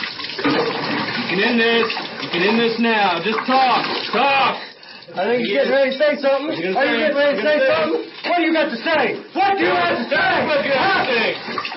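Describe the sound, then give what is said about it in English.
Water poured over a cloth-covered face during waterboarding by trained military personnel, with a cloth stuffed in the mouth and water run into the nose; steady loud splashing and gurgling runs beneath a man's voice sternly ordering someone to talk. “That's the sound of waterboarding performed by trained military personnel”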